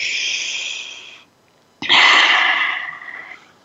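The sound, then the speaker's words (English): A deep breath taken together: a steady breathy hiss, a brief pause, then a louder, sharper rush of air that fades gradually, with no talking. “So let's take a breath together.”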